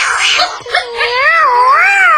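A cat gives a loud, drawn-out meow that wavers up and down in pitch, heard alone with no other sounds.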